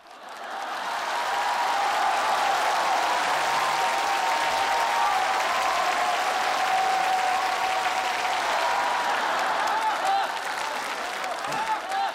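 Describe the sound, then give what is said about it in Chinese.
Audience applause rolls on steadily for about twelve seconds, loud and dense from start to finish with no break in the clapping. “这都吹瓶了也不鼓掌，掌声不停我不停啊。”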